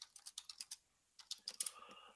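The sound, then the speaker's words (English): Someone types on a computer keyboard, entering an address into a web browser: quiet, quick runs of key clicks split by a short pause. “Just go ahead and type that into your browser there.”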